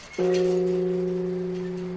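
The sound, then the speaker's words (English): A large bell with a borderless world map on its surface, struck once by a log on an atomic energy symbol. It gives a single clean strike, then a steady, sustained ringing tone with clear harmonics. “On its surface, a world map without boundaries. The atomic energy symbol is placed where a log hits the bell.”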